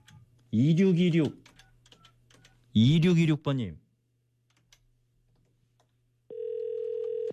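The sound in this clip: A telephone ringback tone enters near the end as a steady, single-pitched hum that plays alone. Two loud vocal bursts come before it.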